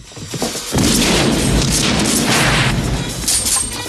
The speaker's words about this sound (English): The fleeing clean head fires at Stubbs.